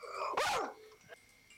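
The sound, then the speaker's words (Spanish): A person's voice imitates a short dog bark: one brief, bright yelp-like bark that cuts off quickly, followed by quieter faint noise. “Pero es rarísimo ese perro. Cortito el ladrido del perro.”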